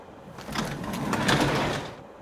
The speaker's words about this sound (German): Bevor ich es aufschlagen kann, öffnet sich die Tür.